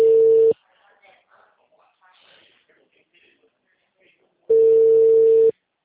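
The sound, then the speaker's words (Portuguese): Telephone line tones after a dropped call: a loud, steady, mid-pitched tone cuts off sharply at the start, then a quiet stretch with faint low sounds follows before a second, longer burst of the same tone returns. “Oi, caiu a tua ligação.”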